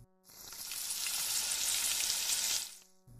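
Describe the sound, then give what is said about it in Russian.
Eggplant frying in oil in a pan gives a loud, steady sizzle with a bright crackling hiss, heard alone for about two and a half seconds before cutting off sharply. “У вас еще должно оставаться масло на сковороде. Выложите сверху баклажаны. Обжарьте до появления слегка золотистого оттенка.”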